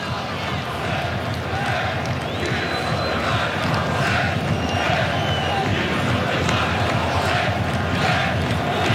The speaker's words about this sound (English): It's the sound of the Moroccan supporters. In fact, you're seeing the French, you're hearing the Moroccans.